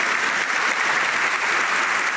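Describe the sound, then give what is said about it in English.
An audience applauds a guest with steady, dense clapping from many hands, holding an even level without pause throughout. “I want to give you an applause first and foremost.”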